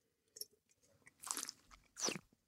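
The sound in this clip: Someone chews food while tasting it: small, faint mouth clicks are followed by two loud, crisp crunches about a second apart, with no talking.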